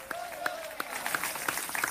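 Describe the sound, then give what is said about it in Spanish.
Faint audienceal applause during a Spanish-language worship service, with scattered claps that begin under a brief voice and continue on their own. “Voy a aplaudirle con todo el corazón, darle la gloria a Dios, a su nombre.”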